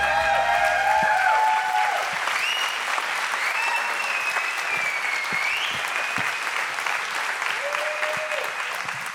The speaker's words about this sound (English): Now I just don't know if that standing ovation was real or not.